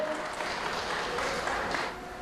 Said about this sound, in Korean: 우리 친구 로봇 휴머노이드 윤희원에게 큰 박수 부탁드립니다.